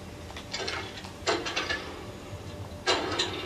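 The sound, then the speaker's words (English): A generator in a video game is started by pulling its ripcord: a few short, rasping mechanical bursts with sharp onsets, over a low, constant hum. “Okay, let's go turn on the generator.”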